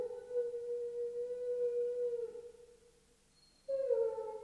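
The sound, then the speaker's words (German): A dog howls in two long, steady, tonal howls: the first sustains for over two seconds before fading, and after a brief silence a second howl starts abruptly and holds at a similar pitch. “Warum nur heult der Hund?”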